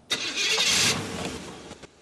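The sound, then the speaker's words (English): A gold sedan's engine starts with a brief crank before catching in a loud, rough roar that settles into a lower idle, followed by a couple of small knocks. “He rushes outside to a gold sedan and starts the engine.”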